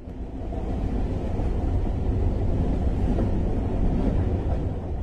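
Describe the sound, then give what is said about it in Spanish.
A train rumbles steadily through Mediterranean farmland on its way to Castellón. The low, even rolling noise holds at a constant level for the whole stretch, with no voices over it. “Pues justo estamos en el tren de camino a Castellón y vemos los paisajes de estos campos de cultivos mediterráneos.”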